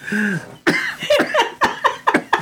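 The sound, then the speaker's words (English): Coughing and choking after a hit of smoke from a bowl: a rapid run of many harsh, hacking bursts that follow a short, drawn-out vocal sound. “I made him choke for a change.”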